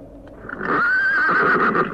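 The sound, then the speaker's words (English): A pony near a graveyard gives a loud, drawn-out whinny, a high wavering neigh that swells and holds for over a second with no talk around it. “God, I walked straight into the pony. I didn't see it.”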